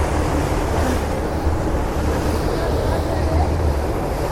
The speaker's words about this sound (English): we just had uh, some massive waves come past.